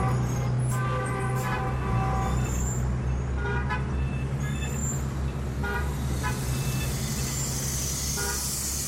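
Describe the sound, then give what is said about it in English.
Dense city street traffic in Beijing roars steadily, with car horns tooting short and repeatedly over the constant rumble of engines. “Lao Wong gets on his bicycle and rides into the wall of sound known as modern Beijing.”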